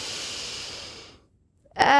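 Slow, airy breathing during a breathing exercise that alternates between the left and right sides: a steady breathy hiss lasts about a second, fades into silence, then a brief voiced sound starts at the end.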